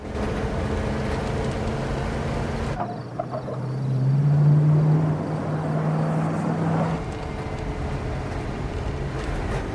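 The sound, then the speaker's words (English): Steady road and engine noise from a minivan speeding along a road at night, a broad rumble with a sustained droning engine tone that comes in partway through and holds before fading back into the road noise. “In the minivan, Robert speeds through the night, his face racked with pain.”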